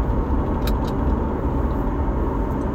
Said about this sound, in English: Is this my car? So, sounds like it's my car.